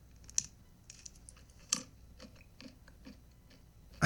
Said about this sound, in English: It's a food, so just guess what kind of food. Pretzels. Ugh, this chomping.